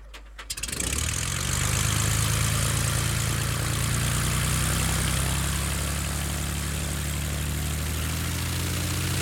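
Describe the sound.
A Cessna propeller airplane taxiing on the runway: the engine rises quickly in the first second, then holds a loud, steady droning hum with a low throbbing tone to the end.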